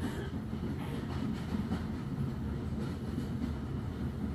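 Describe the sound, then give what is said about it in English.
Steady rumbling of a train carriage crossing a viaduct toward lush woodland. A dense, continuous low roar holds at an even level throughout, with no distinct clicks standing out. “carriage reaches the end of the viaduct, plunging you back into the lush woodland”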